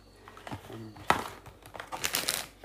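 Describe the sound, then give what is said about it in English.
Tarot cards being picked up and handled: faint rustles and crinkles, a few light scrapes, and one sharper snap near the middle. “Picking up cards, got the devil on them”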